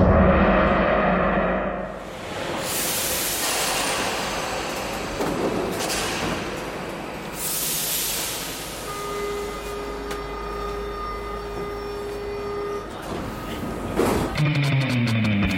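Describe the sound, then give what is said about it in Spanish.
A metro train speeding across the city, with loud whooshing rushes of air, a sustained high electric whine and steady rumble, ending in a sharp change to a brighter, choppier burst of sound. “artista viajaba velozmente a bordo del metro. Cruzaba la ciudad de extremo a extremo”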